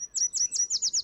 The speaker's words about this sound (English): if it's your first time hearing a northern yellow warbler sing,